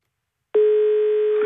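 A telephone line tone sounds as a caller is connected to a phone-in request line. After a moment of silence, a single steady tone starts abruptly and holds unchanged to the end.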